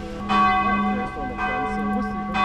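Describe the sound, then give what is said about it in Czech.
Church bell ringing from a church tower in Sulz am Neckar, a bell once confiscated during the war: three loud, resonant strikes at a slow, even pace, each leaving a long shimmering ring over a steady low hum. “Pořád je to ale jenom polovina příběhu z Píště, protože se nenašel jenom jeden zvon, ale hned dva za války zabavené. Právě teď ho slyšíme z věže kostela v Zulc am Neckar”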